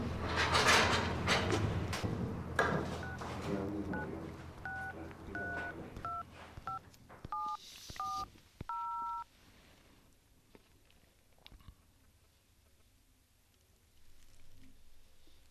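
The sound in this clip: Touch-tone telephone number being dialled: a quick series of short, clear beeps of varying pitch, preceded by some handling clatter and followed by quiet.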